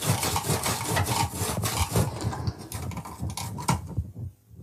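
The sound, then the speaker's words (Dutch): A very sharp knife is pressed firmly through hard fennel, making a rapid series of crunching, rasping strokes. The cutting stops just before the end. “Die venkel is vrij hard. Dus moet echt... zeer goed aanduwen.”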